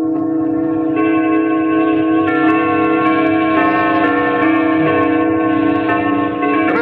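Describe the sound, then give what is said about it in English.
Church bells of a coal town ring together at eight o'clock, a loud, dense, continuous wash of overlapping tolling tones with rich ringing overtones and no voices. “Sound beautiful, don't they? Sounds like all the churches in Coal Town.”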